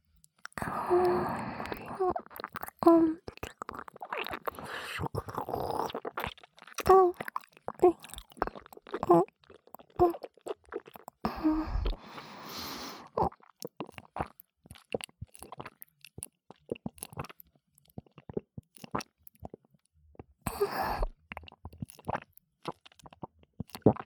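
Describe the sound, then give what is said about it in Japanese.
Crunchy chewing and biting while eating, with many irregular crisp crunches and moist mouth sounds, plus occasional soft vocal sounds between bites. “それじゃあ、これを口まで持ってきて、いただきまーす。”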